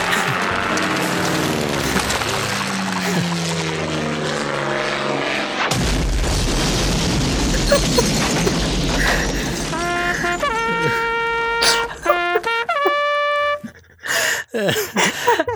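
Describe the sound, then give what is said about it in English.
A cartoon explosion from a SpongeBob SquarePants scene: voices and music give way to a sudden loud blast and a long rumbling roar. Bright, stepped musical tones and a few sharp hits follow. “And oh my gosh, like I didn't cut the audio clip short there. That's just when the scene ends. And I can see in my mind's eye, of course, the explosion and everything”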